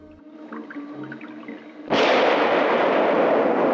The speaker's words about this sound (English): The shot rings out along the tunnel, stopping Calloway